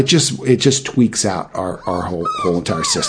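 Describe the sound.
A dog whines in thin, high whimpers under a person talking continuously, the cries wavering briefly between the words.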